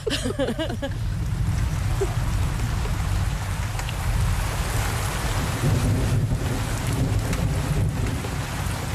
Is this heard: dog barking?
no